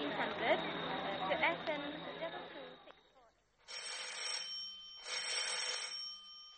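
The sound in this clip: A telephone rings in two electronic bursts after a stretch of overlapping voices. The voices fade into a brief pause before the trilling, warbling rings, which are fairly loud and evenly spaced.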